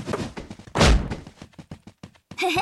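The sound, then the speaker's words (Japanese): A basketball dunk lands with one loud, heavy thud among scattered lighter knocks, and a voice is heard briefly at the end. “へへ、私だってダンクできるんだよ。”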